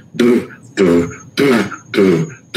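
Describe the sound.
A voice imitates a jug, the bass-like instrument of a jug band played alongside banjo, with four low, buzzy, breathy blasts in an even rhythm, loud and alone.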